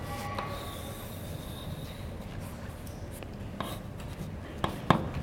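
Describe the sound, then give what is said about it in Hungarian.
Pen drawing a loop on a board while a lecturer sketches a current-carrying wire loop, heard as faint, soft scratching strokes with a few sharper ticks near the end. “Az egyszerűség kedvéért én hurkot rajzolok.”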